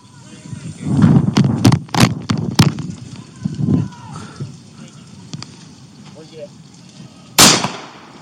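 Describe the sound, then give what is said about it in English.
Gunshots fired during a police shooting of a subject: a rapid burst of several sharp, loud cracks, then a lull and one more loud crack near the end. “26, shots fired, subject down. 10-4, shots fired, subject down.”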